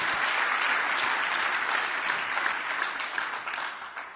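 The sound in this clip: Applause from a church audience welcoming a speaker to the stage: dense, steady clapping that holds strong throughout and thins only slightly toward the end.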